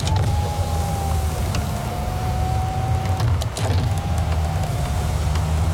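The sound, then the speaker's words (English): Electric windows of a car whirring as they move, two long, steady mid-pitched motor whines separated by a brief pause, over a low rumbling background. “can you please just stop playing with the windows?”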